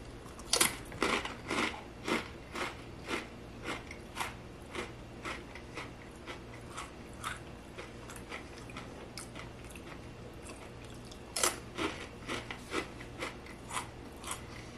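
Crunchy chewing of spicy sweet chili rolled tortilla chips: many crisp bites and crunches in an uneven rhythm, fairly faint, with no talking.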